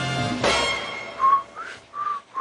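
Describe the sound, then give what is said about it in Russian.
A person whistling inside a house: a few short, clear, high whistled notes in the second half, one sliding upward, over a quiet background. “В доме не свистят, а то денег не будет.”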